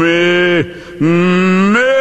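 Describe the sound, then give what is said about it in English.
A man's voice imitates a calf mooing, giving two loud, drawn-out nasal bleats. The first drops off at its end. After a short pause, the second starts low, holds, then jumps higher near the close. “and the calf's going on. He's going,”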